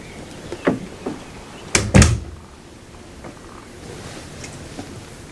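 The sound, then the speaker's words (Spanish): A caravan door is opened and closed, giving a few soft clicks and knocks followed by a louder pair of thumps as it shuts, then a low, quiet background. “Bill abre la puerta y la cierra sin salir de la roulotte.”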